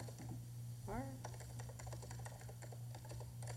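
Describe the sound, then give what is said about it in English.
Typing on a computer keyboard while writing notes in the margin of an electronic book: many quick, light key clicks in an irregular rhythm, heard under a person talking. “For example, you can type in the margin.”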